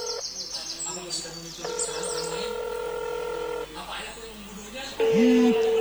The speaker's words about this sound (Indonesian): Teleponnya terputus, Bu. Coba ditelepon lagi, Pak.